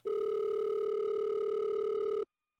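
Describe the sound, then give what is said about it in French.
A telephone dial tone as a call is placed: one steady, loud, mid-pitched hum that holds for about two seconds, then cuts off abruptly into silence. “J'ai envie de parler à un prof. Je vais appeler mon amie Stéphanie Alicas”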